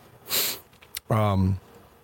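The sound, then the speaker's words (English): A person sniffs, a short rushing breath in, then clears the throat with a brief voiced rasp that is loud and close. “Keep that throat clear with this virus around.”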